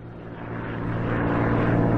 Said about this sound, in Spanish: El 2 de agosto otro avión sobrevuela la zona. Es un bombardero PV-1 Ventura de la Marina en busca de buques enemigos.